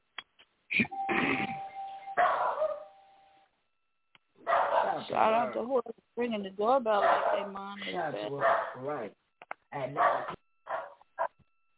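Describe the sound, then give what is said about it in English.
A doorbell chime rings with a sustained tone, with a dog barking and people talking around it. “Shout out to who's ringing the doorbell like they mom.”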